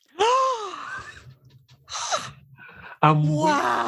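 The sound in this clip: A sharp, breathy intake of breath from a person, brief and sudden, set between stretches of voiced sound.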